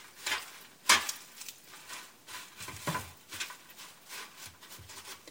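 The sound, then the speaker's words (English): Soft, repeated rustling and squishing of kale leaves as bare hands rub a few drops of olive oil into them: a series of quiet, crinkly rubs with one sharper crackle near the start. “A couple of drops of olive oil on the palms of my hands, and then I'm just sort of massaging it into the kale leaves.”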